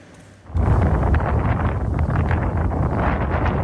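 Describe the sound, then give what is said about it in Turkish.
Strong tornado wind strikes a village, arriving as a roaring, buffeting rumble against the microphone about half a second in. It then stays loud and dense to the end. “Bazı kentlerde şiddetli rüzgar etkiliydi. Çorum ve İzmir'den hortum görüntüleri geldi.”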